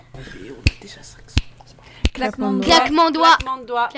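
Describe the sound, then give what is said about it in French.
Three crisp finger snaps, evenly spaced, are played as the sound to guess in a sound-identification game, with faint whispering beneath them. Lively talk follows straight after. “Claquement de doigts.”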